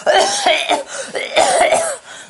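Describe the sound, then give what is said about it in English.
Someone coughs on purpose while acting out an illness in a guessing game. It is a few harsh, voiced coughs in quick bursts, loud and close together, with a short pause between the groups. “You have a cough. That's right.”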